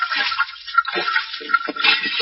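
Running water from a tap while dishes are washed, a steady rushing hiss that swells and dips with shifting splashy textures throughout.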